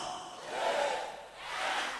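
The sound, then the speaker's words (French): A church audience stands and cheers loudly in acclamation. The dense, roaring crowd noise swells twice across two seconds. “Et à 0, on va se lever pour acclamer bien fort pour le roi des rois qui va faire entrer son serviteur.”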